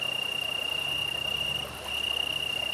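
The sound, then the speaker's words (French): Italian tree crickets trill beside the Drôme river on an August evening around 15 °C, a faint, steady high-pitched tone that runs on without a break except for one brief pause, over a low, even background wash. “toute la subtilité de cette prise de son est d'avoir en premier plan les grillons italiens, les grillons d'Italie, Campus Pelusens, et d'avoir aussi la largeur et l'espace de la Drôme”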